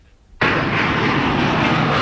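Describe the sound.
An airplane landing sound effect bursts in suddenly as a loud, dense roar. It holds steady and unbroken to the end.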